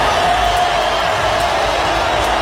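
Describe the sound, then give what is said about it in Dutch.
A stadium crowd of Brazilian football fans in Miami applauds and cheers with a loud, continuous roar that stays steady throughout, with no single voices standing out. “Applaus in Miami.”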